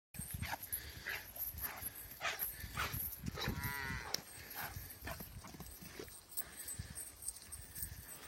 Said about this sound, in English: They come a time, though, in the spring, you let the calf out of the barn. And so I went to that video, show the video, Jeff, and I saw this calf.